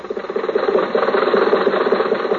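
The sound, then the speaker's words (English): A car engine runs with a steady, throbbing low hum and a quick pulsing beat that barely changes over the short stretch. No voices are heard. “So let's go back and pick up Jack and Rochester in the car.”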